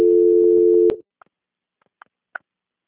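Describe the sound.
Telephone line tones sound during a call transfer. A steady low tone runs for about a second and stops abruptly, followed by a few short, faint beeps spaced apart over near silence.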